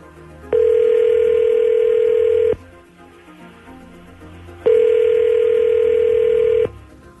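Telephone ringing on the line as a call goes through: two long, steady, loud buzzing rings of about two seconds each, separated by a pause, with no other sound.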